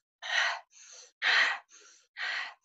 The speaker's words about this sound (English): So you'd be like breathing in and then breathing out. And then you will do this breathing exercise. I can demonstrate.